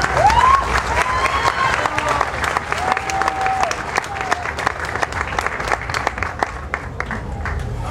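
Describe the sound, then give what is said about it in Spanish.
Audience applause at a live music event: dense, steady clapping from a crowd that fills the whole stretch, with a few brief whistles early on. “Un aplauso, por favor.”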